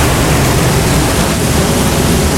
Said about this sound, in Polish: W następnej sekundzie fala uderza z ogromną siłą, przewracając wszystkich i wszystko na swojej drodze, w tym Paulinę.